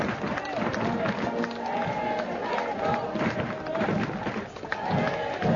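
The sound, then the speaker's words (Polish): A crowd of faithful cheers and calls out in greeting as the pope arrives on an airport apron. The roar of many voices is dense and steady throughout, with surges and dips in loudness. “Słyszymy, jak wierni witają Ojca Świętego Benedykta XVI.”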